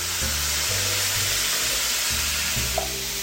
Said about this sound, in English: So in go the beans and their liquid.